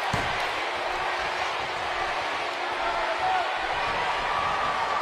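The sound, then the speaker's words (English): A wrestling arena crowd roars as fans chant for a wrestler, producing a dense, steady, loud wash of many voices that continues without a break throughout. “And the fans chant for Eddie Guerrero.”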